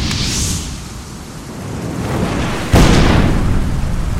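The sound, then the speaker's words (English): Fireball spell explosion effect from a fantasy video game: a rushing, roaring build-up, then a sudden loud blast that leaves a thick, sustained rumble. “Here, stunning spell effects like Magic Missile, Teleport, and my favorite, the Fireball.”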